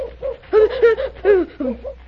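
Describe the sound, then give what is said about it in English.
An owl hoots from a tree at night, giving a series of wavering, mid-pitched hooting calls in quick succession, fairly loud and with no talk over them. “Wow, what was that? Oh, that was an owl up there in the tree. An owl?”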